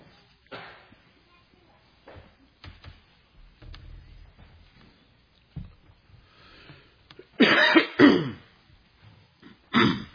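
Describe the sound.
A person clears their throat and coughs from a tickle in the throat: a few rough, raspy bursts, with the loudest cluster near the end, separated by quieter stretches.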